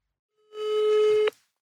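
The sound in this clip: A single telephone ringback tone on a call that goes unanswered: one steady, mid-pitched beep lasting under a second, heard alone with no talk.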